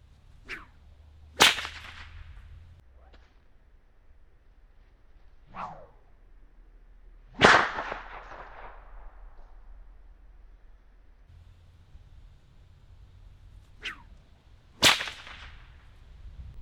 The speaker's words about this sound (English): that crack sound you hear is actually the air clapping back together as the whip has extended. It sort of split the air a little bit and then it comes back together, and you hear that loud boom as that whip cracks through the air.